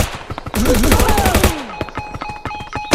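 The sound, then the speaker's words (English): Rapid machine-gun fire in a video game, a loud, dense burst of shots lasting about a second, with scattered clicks and electronic game effects before and after. “Ooh, I'm getting shot at by a machine gun.”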